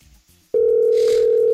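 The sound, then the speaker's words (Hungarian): A telephone dial tone sounds while a call is placed to a listener. A single loud, steady tone cuts in after a brief quiet moment and holds at one pitch to the end. “Hívjuk a naphallgatóját közben.”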